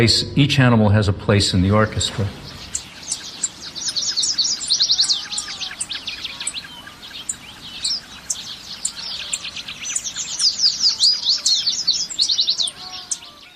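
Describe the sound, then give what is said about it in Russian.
Birds sing as part of an animal-sound museum exhibition, with many high chirps, trills and tweets overlapping in a continuous chorus. A brief voice is heard at the very start. “Сначала слышно пение птиц”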